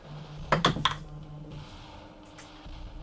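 Dice rolled for an athletics check in a tabletop role-playing game: a quick cluster of hard clicks and rattles, then quiet with a low hum underneath.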